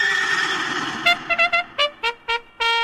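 A horse neighs: a long, loud whinny breaks into a rapid series of short pulsing bursts and ends on a final sustained call, heard alone with no voices.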